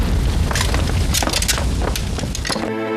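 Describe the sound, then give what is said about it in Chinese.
A house fire burns in a lady's room, roaring loudly with dense crackles, snaps and bangs throughout. A sustained tonal sound cuts in abruptly near the end. “夫人房间着火了！”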